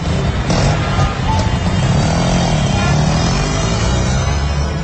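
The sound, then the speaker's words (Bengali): A CNG auto-rickshaw rides through town, its engine and road noise forming a loud, continuous, rough rumble that holds steady for the whole stretch with no clear pauses. “তারপর একটা সিএনজিতে উঠে বসল ওরা তিনজন।”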